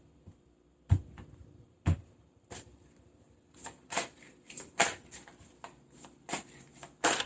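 Tarot cards being shuffled and handled during a reading: a few sharp, separate slaps, then a quicker cluster of crisp card snaps and riffles, with no talk.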